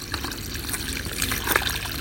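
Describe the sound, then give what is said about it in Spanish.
Water trickles in a soft, steady, bubbling flow throughout, fairly faint and without pauses. “Soy el agua.”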